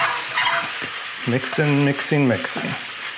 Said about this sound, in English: I'm adding those scallion greens to the pan. And I'm mixing everything together.